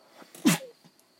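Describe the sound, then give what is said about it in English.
A single sneeze, sharp and fairly quiet, bursts out once near the middle and is over quickly, with only faint low background sound before and after it. “I don't know what the hell just happened to me, but it just happened. It's like a cough or a sneeze.”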